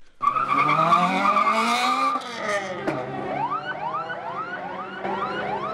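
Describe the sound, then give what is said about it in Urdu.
Cars and jeeps race in a 400-metre drag race in Peshawar. A loud, sustained high-pitched screech gives way to a rapid series of rising engine revs over a constant roar. “Khyber Pakhtunkhwa کے صوبائی دارالحکومت پشاور میں 400 metre drag race منعقد کی گئی، جس میں 70 سے زائد گاڑیوں اور جیپس نے ملک بھر سے شرکت کی”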